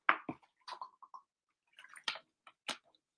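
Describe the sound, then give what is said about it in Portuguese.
A few small wet gulps and mouth clicks as someone with a dry throat sips water, soft and spaced apart with short pauses between them, no talking. “Beber uma aguinha”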